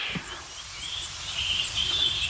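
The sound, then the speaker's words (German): A great spotted woodpecker calls with a few faint, thin, high-pitched notes over a soft background hiss, with no voices present. “Das ist ein größerer Specht.”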